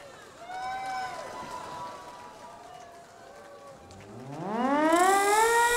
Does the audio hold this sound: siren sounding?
yes